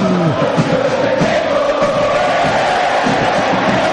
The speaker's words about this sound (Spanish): Se levanta el público de San Lorenzo.